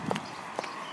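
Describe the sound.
High heels clicking on pavement as a woman walks to work in new heels she is getting used to. Two hollow, clacking steps land about half a second apart, fairly faint.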